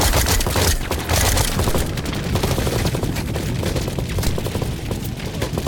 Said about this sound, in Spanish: dónde vienen esos disparos? De todos lados. ¡Fuego de supresión!